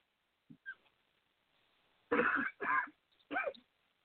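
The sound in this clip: Throat clearing: three harsh, rasping bursts in quick succession, preceded by a couple of faint small throat sounds, heard alone with no talk.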